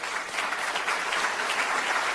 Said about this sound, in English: Now I'm going to call that tepid applause because they don't believe that for a second, but whatever.